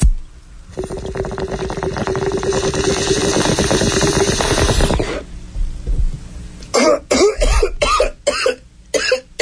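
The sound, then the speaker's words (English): Bong hit: a loud, sustained bubbling gurgle lasting about four seconds, then after a short pause a series of harsh coughs. “take me out with a bong rip. Here you go.”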